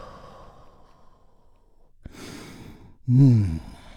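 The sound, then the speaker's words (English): A deep breath during a guided relaxation exercise: a short, breathy rush of air, then a louder voiced sighing exhale whose pitch drifts downward, with no talk over it. “taking a big, deep, healing breath all together. Here we go. And release.”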